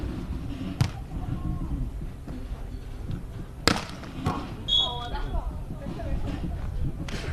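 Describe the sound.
A ball is struck on a serve during a match between district teams, with two sharp thumps standing out over continuous commentary and background noise.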